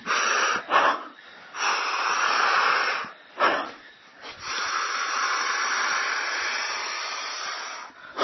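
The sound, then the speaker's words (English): Long, hissing breaths during a breathing exercise: a few extended airy inhale-exhale sounds separated by brief pauses, loud and steady, with a single quick spoken word. “I take a long inhale. Exhale is still over with”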